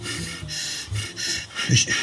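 Deep breathing by a person at the dentist, a few slow breaths in and out, each a soft, airy rush with short pauses between, heard alone without talk.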